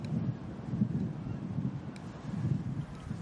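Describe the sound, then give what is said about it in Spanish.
Wind starts to blow, a soft, steady low rumble of airy noise that swells and eases in gentle gusts, faint throughout and with no voices. “De pronto el viento comienza a soplar alborotando su pelo.”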